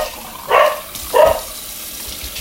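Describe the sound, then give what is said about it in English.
Dogs barking: two short, sharp barks a fraction of a second apart, fairly loud and alone with no talking. “Told you they were gonna bark.”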